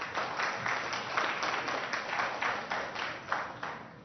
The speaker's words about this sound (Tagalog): Palakpakan natin naman.